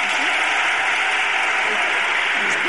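Dense applause from an audience welcoming a guest, a loud, even wash of clapping that holds steady through the whole clip.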